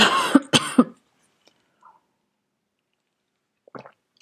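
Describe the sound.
A person clears their throat in a few short, rough bursts at the start, then near silence, with one more brief faint throaty sound near the end.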